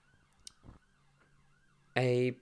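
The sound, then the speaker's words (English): Emergency vehicle sirens outside: a faint, wavering siren tone runs underneath, then a short, loud, blaring harmonic burst comes near the end. “How many sirens are out there today? Yeah, has that just been, like, continuous?”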